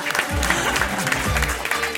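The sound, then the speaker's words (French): Audience applauding French comedian Isabelle Vitari, with dense, steady clapping and some crowd noise throughout. “Applaudissements pour la souriante Isabelle Vitari.”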